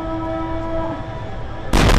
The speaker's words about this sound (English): A call to prayer punctuated by retaliatory explosions.